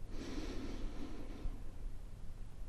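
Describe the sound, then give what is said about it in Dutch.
A single deep inhale through the nose during a guided breathing exercise, a soft, airy rush of breath that swells early and then fades into quiet hiss. “Adem diep in door je neus.”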